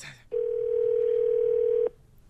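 A telephone dial tone sounds as a call is placed on crossed phone lines: a single steady, mid-pitched hum that holds for about one and a half seconds, then cuts off abruptly, with no talk.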